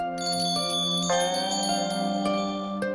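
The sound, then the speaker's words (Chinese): Bells of a palace carriage ringing outside, bright metallic chimes struck a few times in an uneven pattern over sustained ringing tones. “听到外面是承恩车的铃声响起”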